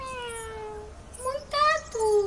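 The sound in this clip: A cat meowing: a long, drawn-out meow that slides downward in pitch, then a few shorter, brighter meows in quick succession, moderately loud with no other sounds around them.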